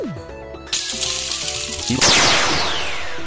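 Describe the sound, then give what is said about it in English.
Laser cannon fire in a turn-based video game battle: a synthetic falling tone, then a harsh electronic blast, then a second, louder blast with sharp descending zaps that slowly decays. “Select weapon. Middle laser. Laser cannon.”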